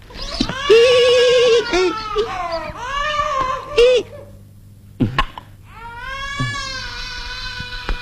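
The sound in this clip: An infant cries in a few high, wailing bursts with clear harmonic tones, broken by short pauses and one brief cough-like catch. The crying is loud and alone, with no talk over it.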